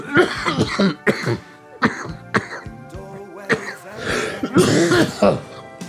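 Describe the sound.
Coughing and throat clearing from a person with a tickle in the throat: a string of rough, uneven coughs and hacking bursts that keep coming for several seconds.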